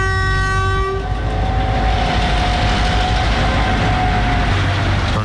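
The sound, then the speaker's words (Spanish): A train hauled by a GT-22 locomotive in front with a General Motors locomotive assisting, at San Carlos de Bariloche station in sub-zero cold: a steady, loud rumble and rail clatter, with a multi-tone horn blast at the start, one tone lingering for several seconds. “La GT-22-9070 al frente y la General Motors 319 traccionando de refuerzo.”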